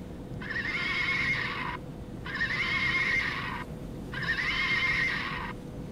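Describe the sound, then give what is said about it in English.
Neighing from a toy pony aboard a plane: three identical high whinnies repeat at even intervals, each about a second and a half long, over a constant low cabin-like rumble. “A little girl next to him plays with a toy pony.”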